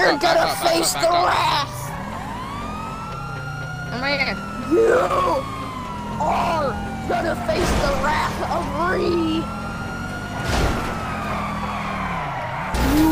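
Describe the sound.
Police sirens wail during a car chase in an open-world crime video game, sweeping up and down in pitch over continuous engine noise, with bursts of tire skidding in between.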